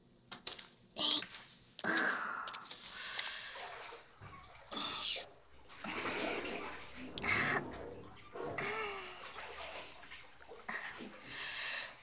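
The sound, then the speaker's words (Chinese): Water sloshes and splashes as someone climbs into a filled bathtub, with a few irregular surges of watery movement and quieter drips between them. “好了，我们进浴缸吧。”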